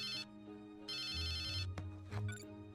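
A telephone ringtone plays as two bright electronic bursts separated by a short pause, over a low sustained tone, followed by a thump and a few other short sounds.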